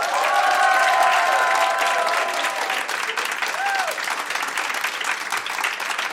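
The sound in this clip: A busy crowd fills the Thalia bookshop in Hamburg's Europapassage, a dense, steady hubbub of many people with scattered sharp clatters and claps running throughout.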